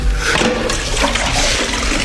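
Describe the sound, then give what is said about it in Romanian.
Water pours and splashes as someone washes their face from a fragrant wooden jug, a steady, continuous rush of water at a fairly loud level. “Iată-l și pe Sfântul Sisoie, viitorul făcător de minuni, care s-a deșteptat din somn și se spală pe față într-o bărdacă de lemn mirositor.”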